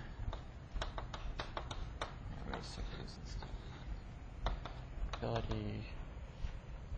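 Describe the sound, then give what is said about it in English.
Writing the first five items of a list on a board: a long run of many sharp taps and scratchy strokes with brief gaps, steady and fairly loud over a low background rumble. “Maybe I'll just write the first five criteria before I start to explain them.”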